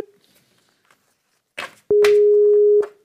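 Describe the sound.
Ringback tone while calling someone over an internet call: one steady, mid-pitched electronic tone lasting about a second, loud and alone, preceded by a brief burst of noise.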